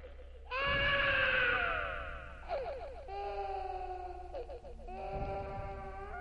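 A woman screams in terror, several high, strained cries with sliding, falling pitch, some short and some drawn out, over a low steady hum.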